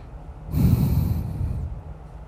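A gentle, quiet exhale through the nose during a breathing exercise, a soft airy rush lasting about a second that fades out, heard alone.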